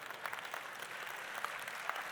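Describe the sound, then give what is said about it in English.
Audience applause, a dense and steady wash of clapping that holds at a moderate level for the whole stretch, with a few slightly louder claps standing out and no voices over it. “All the insensitive people are clapping, right?”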